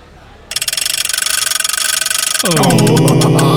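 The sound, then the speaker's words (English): A prize wheel spins on a game show: rapid, evenly spaced ticks start after half a second and hold steady, then a loud sustained tonal sound joins for the final second. “Right, shall we spin the wheel? Spin it.”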